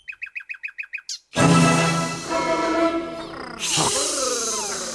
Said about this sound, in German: Fliege voraus, kleine Nachtigall, und nicht zu schnell, so dass ich dir folgen kann.